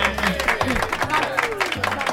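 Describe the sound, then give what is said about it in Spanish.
Applause at a school event, with scattered clapping heard beneath people talking; the clapping stays fairly light and is partly covered by the voices. “Venga, un aplauso para animarte.”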